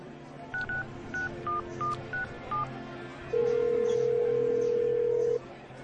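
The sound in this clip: Keypad tones sound as a number is dialed on a cell phone: a quick series of short, clipped beeps at varying pitches, then one long steady tone lasting about two seconds.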